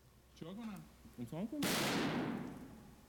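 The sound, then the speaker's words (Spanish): A single gunshot fired live by a TV presenter: a loud, sharp crack with a long decaying tail, following a brief voice. “De hecho, el presentador, como ven, llega a disparar en directo.”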